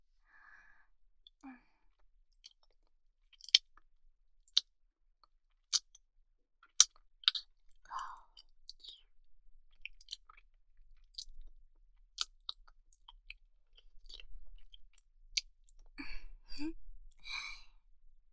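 Wet kissing and mouth smacks come at scattered intervals, soft and close, mixed with breathy sighs and exhalations, all quiet against near silence.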